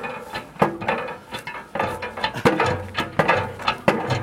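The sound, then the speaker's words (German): A lever-arm hand pump is worked in steady strokes, giving many regular mechanical knocks with creaking and clattering between them, at moderate loudness. “Das ist doch nicht umsonst Pumpe. Also pumpen!”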